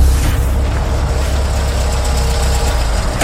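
A car engine hums loudly at a low, steady idle while parking, with a slightly rough, knocking texture and no talk over it.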